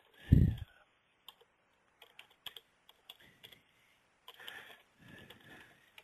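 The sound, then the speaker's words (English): Typing on a computer keyboard while entering caption text in editing software, with faint, sparse key clicks coming in irregular clusters and quiet pauses between them. “So I enter my text, I can cut it and paste it, I can get text, I can just type it here.”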